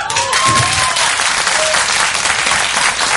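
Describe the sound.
Audience applause at the end of a live concert recorded in 2003 before a crowd in a large studio room at Real World Studios: dense, steady clapping that stays loud and even throughout.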